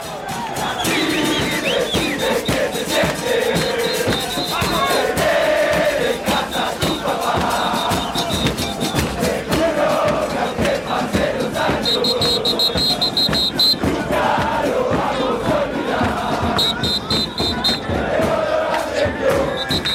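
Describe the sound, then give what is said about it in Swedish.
Argentine football supporters on Copacabana beach sing a Maradona chant through the night. The crowd's singing is dense and continuous, with steady sung phrases repeating over a constant roar. “på andra sidan vid stranden Copacabana så var det ju mängder med argentinska supportrar, och de höll igång hela natten med den här Maradona i Mascherande Kepelé.”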